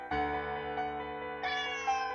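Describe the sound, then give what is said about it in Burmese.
A house cat meows in one long, drawn-out, moderately quiet call that turns brighter and more strained toward its end. “ငါတို့အိမ်ကကြောင်ကထုံးစံတိုင်းအော်နေတယ်”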